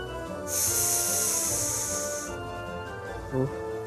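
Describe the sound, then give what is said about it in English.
Snakes hiss as they crawl out from under stages in a tabletop role-playing game scene, a loud, breathy, high hiss held for about two seconds above a quiet, low background bed. “Crawling out from underneath the stages, you see there's fucking snakes.”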